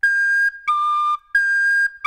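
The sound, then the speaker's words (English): A swanee whistle plays a few clear, sustained whistling tones. The tones alternate between a higher and a slightly lower pitch, with short gaps between them, and no other sounds are heard. “And of course, the swanee whistle.”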